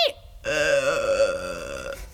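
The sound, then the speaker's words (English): A single loud burp, long and drawn out for about a second and a half, with a throaty, wavering tone that stays steady before trailing away. “how did you burp?”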